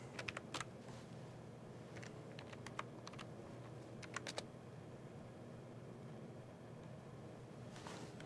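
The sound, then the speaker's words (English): Quiet clicking of a computer keyboard as a file path is typed, in short clustered bursts of keystrokes separated by pauses, over a faint steady hum. “I typed in the wrong path.”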